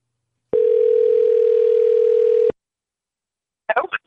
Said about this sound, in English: do you have it ready to go? Yeah, it's dialing now. Here we go.